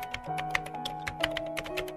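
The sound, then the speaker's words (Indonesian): A middle-aged man types busily on his computer keyboard in an office, producing a quick, irregular run of faint key clicks over a soft, steady tone. “Ia menuju ujung ruangan, tempat seorang laki-laki paruh baya yang sedang sibuk mengetik di komputernya.”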